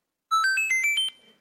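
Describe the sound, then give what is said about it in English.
Video game extra-life one-up jingle from the Mario Brothers games: six quick, bright electronic notes stepping upward in pitch, each held briefly. The last note fades out cleanly, with no voices. “that's the sound you hear when you get a one-up or an extra life in the Mario Brothers video games.”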